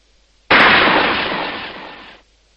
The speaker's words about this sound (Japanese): ペンション中に響き渡る銃声がした。